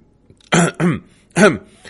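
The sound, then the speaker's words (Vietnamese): Dry cough and throat clearing from a team captain: three short, rough voiced bursts, the first two close together and the third after a brief pause, with no talk around them. “Đội trưởng ho khan một tiếng.”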